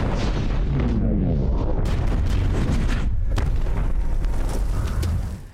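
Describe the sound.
The Jericho missile explosion from the film Iron Man is a huge, continuous roar of deep booming blasts with crackling bursts layered on top, staying very loud for several seconds before it drops off sharply at the end.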